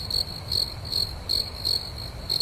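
Crickets chirp at night in a steady, evenly spaced rhythm of short, high-pitched trills over a faint low background rumble.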